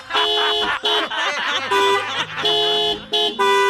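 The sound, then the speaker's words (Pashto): A car horn honks in several loud, sustained blasts separated by short gaps, its bright steady tones repeating, with a lower tone joining partway through. “یا لکه تا څه پر هارن باندې ګوتې ایښې ده؟ لږ صبر نه شې کولی؟”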